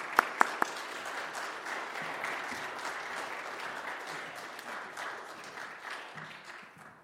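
Audience applause welcoming a guest preacher at a church service: a few sharp claps at the start swell into steady, sustained clapping that holds for several seconds before easing slightly.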